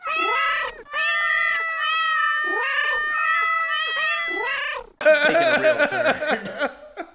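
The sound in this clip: A cat meowing in a string of drawn-out, wavering meows with a few short breaks, ending in a louder, rougher, more ragged yowling stretch.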